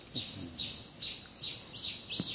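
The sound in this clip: Birds call with several faint, high-pitched chirps spaced through the moment, each a short bright tweet over a quiet background hiss.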